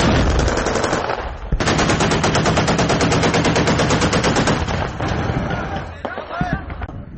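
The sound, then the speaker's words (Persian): Machine-gun fire during fighting in the city of Aleppo, Syria: loud, dense rattling bursts of rapid shots that thin out toward the end, where voices call out. “بعدی ضربه‌های زیادی هوایی و تیراندازی‌ها نیروهای سوریه به داخل شهر حلب حرکت می‌کنند.”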